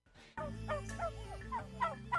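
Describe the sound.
Free-range turkeys gobbling in the countryside, a few short, warbling, rising-and-falling calls repeated at irregular intervals, fairly faint over a constant low hum.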